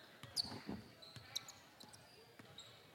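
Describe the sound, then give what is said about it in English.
A basketball is dribbled in a basketball video game. A few sharp bounces thump under the play-by-play commentators' talk, with squeaks and faint arena noise between them. “Cross the timeline to Lowe with a dribble. Bellicotti up on him. He'll come up and they'll start the five count.”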